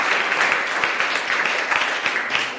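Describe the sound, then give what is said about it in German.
Audience applause for nurses and doctors fills the whole stretch with dense, steady clapping, a continuous crackling wash at fairly even loudness with no voices on top. “Applaus an die Leute, die so einen wichtigen Dienst tun.”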